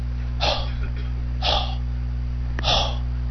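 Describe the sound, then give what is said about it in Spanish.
Three breathy exhales, each voicing the Hebrew letter he as a soft, airy rush of breath, spaced evenly apart over a low steady hum. “Y se pronuncia como dando aliento.”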